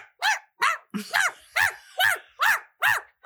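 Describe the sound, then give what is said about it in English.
A dog in a movie barks constantly: sharp, high-pitched barks in a quick, even rhythm, about eight of them back to back, loud and alone with no talk. “It is every moment of this movie, this dog is barking. And it's not like a low bark.”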